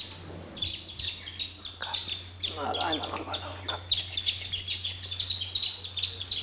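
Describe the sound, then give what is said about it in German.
Chicks three to six days old chirp in rapid, high-pitched peeps, sparse at first and then dense and continuous, over a low steady hum, with a person's voice briefly heard among them. “Deswegen scheuche ich jetzt die Küken mal rüber. Ja, kommt mal her. Die Zwerge sind 3 bis 6 Tage alt.”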